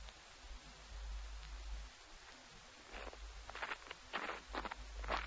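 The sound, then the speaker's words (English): Footsteps crunching on crisp snow at night. A soft series of short crunches becomes clearer and more frequent in the second half, faint over a low steady hum. “The snow isn't too bad to walk on. Nice and crisp.”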